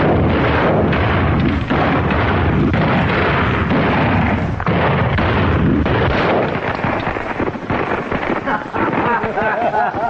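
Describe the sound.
Gunfire in a drama: dense, loud bursts of shots and booms run for the whole stretch, mixed with shouting voices and no pause.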